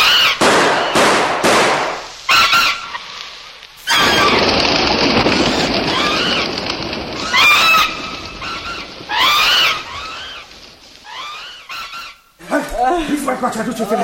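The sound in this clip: Rifle shots are fired at a pterodactyl: a rapid series of loud, sharp cracks and a long roaring burst, broken up by shrill squealing cries, with people shouting between the shots.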